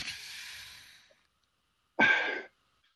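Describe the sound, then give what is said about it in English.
A person breathing hard lets out a long, faint, airy exhale, then after a pause a shorter, sharper and louder breath, alone with no talk. “I'm breathing hard”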